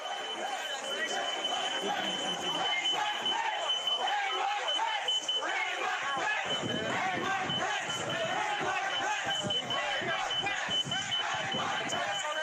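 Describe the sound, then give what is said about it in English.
A security alarm at a door of the Capitol building sounds as a continuous high-pitched tone. It holds steady under the loud, constant shouting of a crowd. “You can hear the security alarm from the door in the background,”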